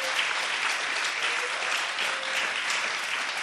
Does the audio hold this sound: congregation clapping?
yes